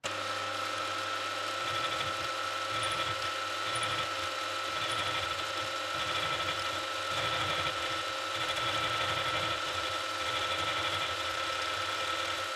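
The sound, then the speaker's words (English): A milling machine cuts metal pieces for pliers down to length, giving a continuous whirring, grinding drone with a steady high whine and low, irregular pulsing underneath, sustained without a break and with no voices. “That's four pieces, two for each set of pliers, and next I'll mill them to length.”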